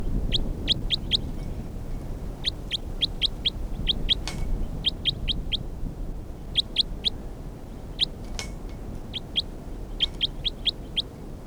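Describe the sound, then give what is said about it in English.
Bird song: repeated bursts of a few rapid, high, sharp chirps, separated by short pauses, over a faint low background hiss. “This is bird 326.”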